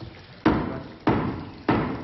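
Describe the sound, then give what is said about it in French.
A shoemaker hammers on old shoes in a stage comedy, landing three evenly spaced, loud blows, each a sharp thud with a short decaying ring. “Tes coups m'empêchent de compter. Quant à moi, il m'insupporte. Désolé, monsieur le comte, mais dans mon métier, on tape. Plus les souliers sont vieux, plus fort il faut taper.”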